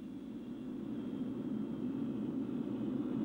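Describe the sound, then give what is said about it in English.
Steady jet engine drone from a TWA passenger jet flying high above the clouds, a continuous low roar that holds even and fairly loud throughout. “A TWA passenger jet flies high above the clouds in a clear blue sky.”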